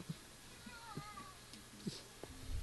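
A cat meows once: a faint, wavering mid-pitched call that rises and falls over low background noise, with a few soft knocks around it.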